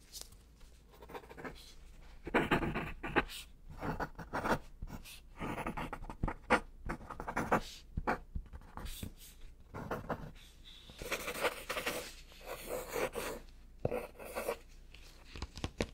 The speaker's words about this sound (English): I'm gonna write the verdict down.